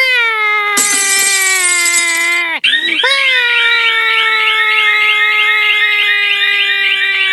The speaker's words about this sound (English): What is that terrible sound? That idiot set off the alarm.